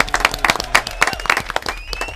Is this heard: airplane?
no